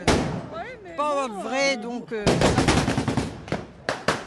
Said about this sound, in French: Pendant une demi-heure, ça court, ça crie, ça tire et ça meurt dans tous les sens. C'est assourdissant